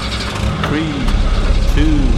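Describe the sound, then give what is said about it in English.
Race car engines in a video game idle and rev in a dense, steady roar. Two short rising rev blips stand out over the continuous engine drone. “You are player three. Start your engines.”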